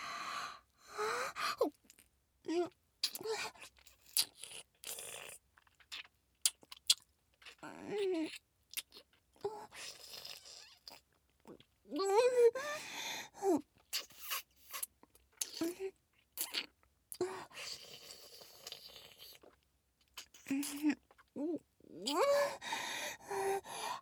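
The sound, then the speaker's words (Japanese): A voice imitating a vampire biting and drinking blood, with wet mouth sucking, gulps and smacks broken by breathy gasps and sighs, many irregular bursts separated by short quiet pauses. “ちょっとチクッとするけど、さっきもやってたから大丈夫だよ。君の血いただきます。”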